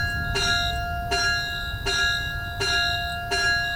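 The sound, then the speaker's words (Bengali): A railway station bell rings on a platform with five evenly spaced metallic strikes. Each clear, high tone rings on and overlaps the next strike in a steady, moderately loud pattern. “স্টেশনে ঢং ঢং করে ঘন্টা বাজল।”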